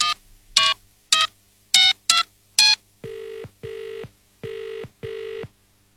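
A phone dials a number with a few quick, irregular keypad beeps, then four steady ringback tones follow in two even pairs while the line waits for an answer.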